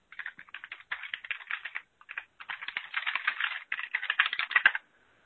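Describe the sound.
Keys clatter on a computer keyboard in rapid runs of typing, separated by short pauses, at moderate loudness and with no voices.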